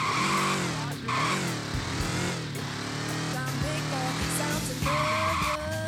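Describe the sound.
Motorcycle riding and skidding in a video game mission: a steady loud engine drone with repeated high tire squeals and skids throughout, at an unbroken loud level.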